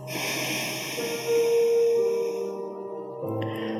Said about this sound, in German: Und löst das Bandha, atme links aus.